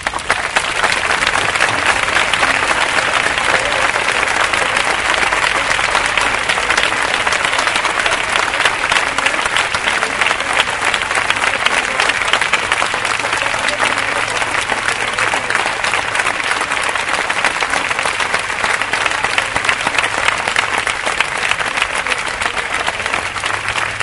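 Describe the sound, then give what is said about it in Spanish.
Loud applause from an audience at an evening talk, dense and steady clapping that holds an even level for about 24 seconds with no speech over it. “A mí me gustaría que el aplauso más fuerte de esta noche fuera ahora para Jordi.”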